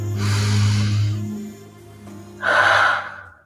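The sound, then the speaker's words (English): One deep human breath: a long, airy inhale followed after a brief pause by a shorter, louder exhale. “Let's all just take a deep breath.”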